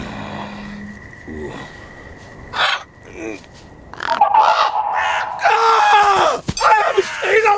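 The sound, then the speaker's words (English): Large birds caw harshly as they close in on a cat lying in sand. Rough, screechy calls come in a few short bursts at first, then grow louder and denser. “He swipes at the birds, which fly off.”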